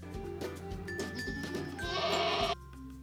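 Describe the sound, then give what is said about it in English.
Baby goats bleating at a petting zoo: several overlapping, wavering bleats, ending in a longer, louder call that cuts off abruptly. “Baby goats. There they are. There they are, the baby goats.”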